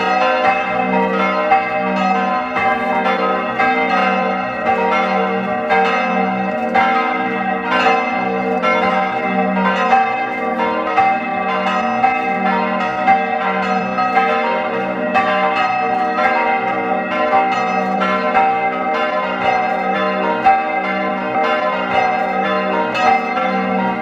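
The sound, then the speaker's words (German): Church bells of the parish church of St. Ulrich in St. Ulrich am Pillersee, Tyrol, ringing at noon: a loud, continuous peal of overlapping strikes with rich ringing overtones. “Es ist 12 Uhr. Sie hören die Glocken der Pfarrkirche zum heiligen Ulrich in St. Ulrich am Pillersee.”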